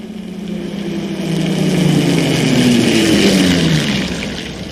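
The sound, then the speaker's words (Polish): Automobile engine running as the car drives off, a steady drone that swells in loudness and dips slightly in pitch before easing toward the end. “Zdaje się, że chłopcy od windy wnoszą do automobilu zabandażowanego Robinsona. Jadę z nim.”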